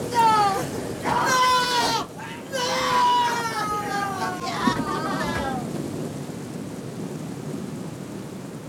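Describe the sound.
A herd of animals bleats, overlapping wavering cries crowding the first half, then thinning into a steady low rumbling background.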